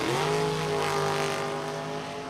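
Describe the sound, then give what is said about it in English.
Dragster engines roar in a drag strip race between two dragsters with $5,000 to win. The loud, continuous, tonal engine roar climbs in pitch at the start, then holds steady and eases off slightly toward the end. “Incredible drag race.”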